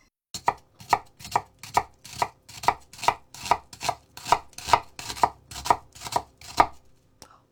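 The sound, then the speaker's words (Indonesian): A knife finely chops an onion that was halved lengthwise and sliced thin, cutting it into small pieces. Many crisp, evenly spaced chops fall in a steady rhythm, fairly soft, with no talk. “Pastikan mencincangnya dengan halus. Bawang dipotong dua secara memanjang. Iris tipis memanjang, lalu iris lagi melebar sehingga menghasilkan cincangan yang kecil-kecil.”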